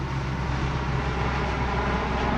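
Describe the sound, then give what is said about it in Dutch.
Steady, loud engine drone from a low-flying aircraft trailing dark petrol fumes during a parachute cargo drop. The roar stays even and continuous throughout, with a low hum underneath and no voices. “Donkere benzinewalmen achter het vliegtuig. Inmiddels behoorlijk laag.”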